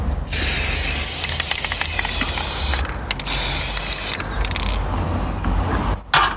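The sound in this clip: Aerosol spray paint hisses as it undercoats miniatures, a loud, steady rush broken by brief pauses between a few long blasts, with no talk.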